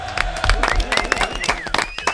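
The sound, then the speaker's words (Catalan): A group claps and cheers during a children's guessing game. Short, uneven bursts of clapping mix with excited voices and whoops. “Molt bé, un aplaudiment.”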